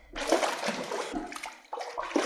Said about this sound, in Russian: Ты нарочно бросил его в воду.